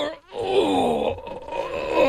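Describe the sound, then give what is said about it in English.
A voice imitates the groan of someone bending down to pick something up: a drawn-out, low, wavering 'oh' moan lasting about two seconds, alone and fairly loud. “See, that's what they should put in the test, how long it takes you to groan before you can actually do anything.”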